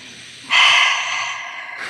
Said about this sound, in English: One more big breath.